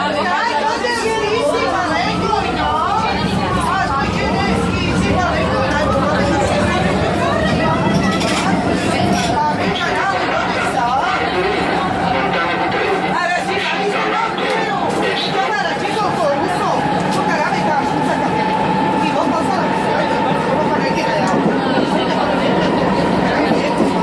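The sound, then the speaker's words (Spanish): Ambience in a Rome metro station in Italy: constant crowd chatter over a steady mechanical rumble, with a sustained whining tone running through most of it. “Soundscapes. Metro de la ciudad de Roma, Italia.”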